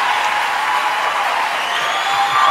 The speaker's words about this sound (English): Incredible response from the studio audience.